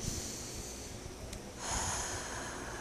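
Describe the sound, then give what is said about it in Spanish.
Breathing, with the breath held and then let go: a soft, airy hiss heard alone, which swells midway and stays fuller to the end. “Contengo y suelto. y Cada vez que respiro, contengo y suelto, voy soltando”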